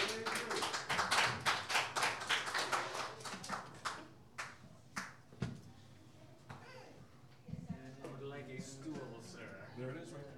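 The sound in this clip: Applause greets a songwriter taking the stage at a live music night, many quick hand claps packed together at first, then thinning to a few scattered claps by about five seconds.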